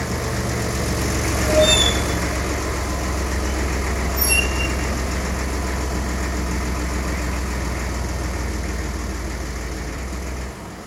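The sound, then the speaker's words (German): A truck's engine rumbles with a steady, low, idle-like drone as it rounds a curve and stops behind a Peugeot, easing slightly quieter toward the end, with a few brief faint high tones. “Der Laster fuhr um die Kurve und hielt hinter dem Peugeot.”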